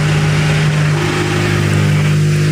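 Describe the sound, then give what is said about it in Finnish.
A rally car pulls away toward the service park, its engine a steady, low, droning hum with a constant pitch and even loudness throughout. “Joo, näin siis Teemu Suninen ja Janni Hussi lähtevät röpöttelemään kohti huoltoparkkia.”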